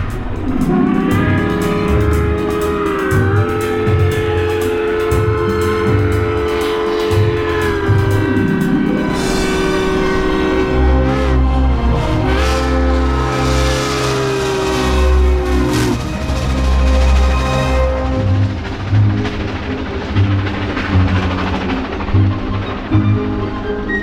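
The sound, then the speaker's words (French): A passenger train runs along: four first-class carriages, two battery wagons and a speed-measuring wagon. Its loud, steady rumble carries sustained tonal whines that hold and then shift in pitch, with no talk throughout. “Derrière nos 4 wagons de première classe, il y a 2 wagons batterie et 1 wagon de mesure de vitesse. Bon, allez, nous filons vers Bréauté-Beuzeville.”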